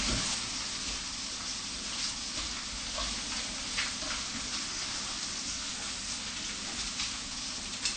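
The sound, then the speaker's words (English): Tofu sizzles as it fries in a pan and is stirred now and then, making a steady, dense hiss that holds an even level throughout with no talk. “And let them fry it really well. Now and again, you stir it up, huh? Yes, Master. Fry so that it fries from all sides.”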